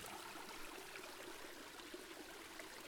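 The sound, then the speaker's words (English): Faint, steady rushing water flows and pours down in a continuous broad wash without pauses, alone and with no voices. “looking up under the water as the sun dances along the surface, the natural sounds of the water crashing down,”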